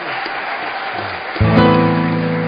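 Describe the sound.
An audience applauds to welcome a comedian and actor onto the stage: steady clapping that swells louder about halfway through and stays strong.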